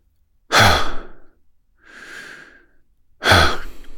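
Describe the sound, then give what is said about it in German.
Relaxed Hawaiian "ha" breathing, with the air let out through the mouth: two loud, breathy exhales around one softer, longer inhale, heard alone without talk. “Okay, jetzt kommen wir zum hawaiianischen Haaratem.”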